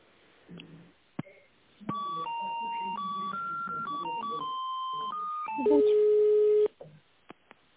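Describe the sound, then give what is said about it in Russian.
A telephone call being transferred, heard as a few short clicks and then a run of sustained electronic tones that change pitch step by step like a hold melody, ending in a louder held tone and a few faint clicks. “я вас переключу да? на Татьяну.”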